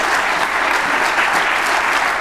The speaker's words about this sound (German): Nochmal einen Applaus bitte für Kasper.